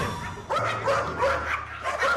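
Excited dog barking at arriving guests: a few loud, sharp barks and yips in quick succession, with a whiny edge between them.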